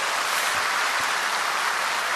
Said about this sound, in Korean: 우리, 그라시아서 박수 한 번만 더 치겠습니다.